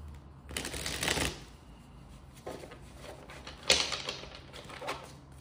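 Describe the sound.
Tarot cards are shuffled and drawn in a few separate bursts of papery riffling and flicking, with one sharper snap of cards in the middle and quieter pauses between the bursts.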